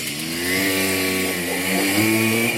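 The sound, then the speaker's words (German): A moped engine drones steadily while someone rides it, with a buzzing, harmonic-rich tone that holds a fairly even pitch and wavers slightly as the throttle shifts. “Da kann ich halt an der Stelle einfach mit dem Moped fahren.”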